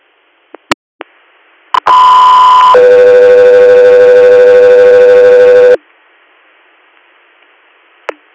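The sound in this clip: Two-tone radio dispatch alert paging an air medical crew: a loud steady high tone for about a second, then a longer, lower steady tone for about three seconds. Brief radio clicks come before and after it.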